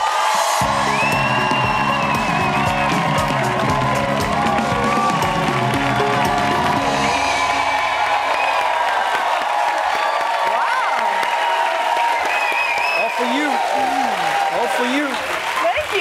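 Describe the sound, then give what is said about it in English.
Loud, sustained applause and cheering from a show audience giving a standing ovation to an arriving guest, with whoops and yells throughout and a voice speaking over the crowd. “Welcome standing to the show. Standing ovation. You have an amazing audience.”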